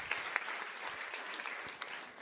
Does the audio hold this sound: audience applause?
yes